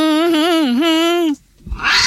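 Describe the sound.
A man imitates a cat purring with a loud, sustained voiced tone that wavers up and down for over a second. It breaks off into a short gap followed by a burst of breathy noise.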